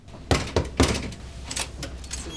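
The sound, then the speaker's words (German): Three sharp knocks on a hotel suite door, evenly spaced and loud, followed by quieter shuffling sounds. “Also, dann klopfen wir mal an.”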